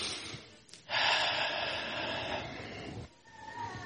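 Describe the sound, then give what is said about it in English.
Someone draws a deep breath during a guided breathing exercise. It is one long, airy, hissing inhalation lasting about two seconds, followed by quieter breathing. “Take a deep breath.”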